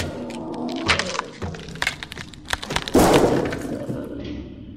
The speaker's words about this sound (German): Du Riesenteddy musstest ja unbedingt die Lampe tranchieren.